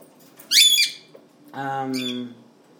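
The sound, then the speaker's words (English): A parrot squawks twice, each call a harsh, bright, harmonic cry of under a second. The second call is longer and slightly lower than the first, and there are quiet gaps around both. “There's a parrot over there, he's squawking at me.”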